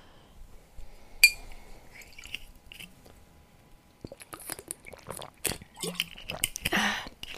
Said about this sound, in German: Obwohl, er trinkt einen Schluck.